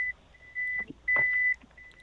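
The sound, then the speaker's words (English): A vehicle's reversing alarm sounds while it backs up, giving a few steady, high-pitched electronic beeps at even intervals over a faint low rumble. “Sorry for that beeping. I just had it back up there for a second.”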